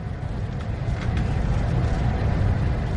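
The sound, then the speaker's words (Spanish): Riding on a train: a loud, constant low rumble of the carriage in motion, steady and without breaks for the whole stretch. “Aquí sigo, en este tren. Un tren que me lleva al lugar en el que quiero estar ahora.”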